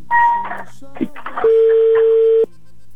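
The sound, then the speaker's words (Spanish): A telephone being dialed for a call: a short keypad tone, then a single steady ringing tone that holds for about a second, with talk around it. “Voy marcando, ¿eh? A ver si tenemos suerte. Gracias. Estoy marcando.”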